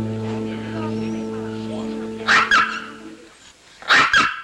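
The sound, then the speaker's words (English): A toy poodle barking in an apartment: two bursts of sharp, high, yappy barks, each a quick double, loud after a quieter steady tonal hum. “Now at Rita's apartment, a toy poodle barks at Tom”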